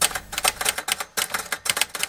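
Rapid typing on an Olivetti typewriter: a dense run of sharp key strikes in quick, irregular bursts, with a brief pause near the middle and no voices.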